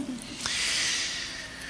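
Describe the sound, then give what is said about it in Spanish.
A woman yawns: a soft, drawn-out breathy exhalation that swells after a brief intake and then slowly fades. It is quiet and heard on its own. “no te duermas. Está bostezando. ¿Tienes sueño? ¿Estás cansada?”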